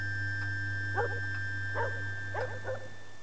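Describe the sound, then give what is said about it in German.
A few faint, short dog barks at night at a castle, spaced irregularly over a steady low electrical hum. “Der Hund hat mich geweckt. Jetzt bellt er nicht mehr.”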